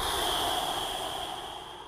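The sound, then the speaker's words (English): A long, steady exhale pushes air out through the mouth during a calming breathing exercise. The soft, breathy hiss slowly fades over about two seconds. “Let all the air out through your mouth.”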